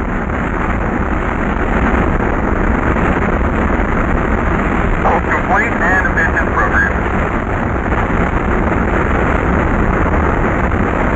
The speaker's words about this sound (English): Liftoff. We have a liftoff. 32 minutes past the hour. Liftoff on Apollo 11.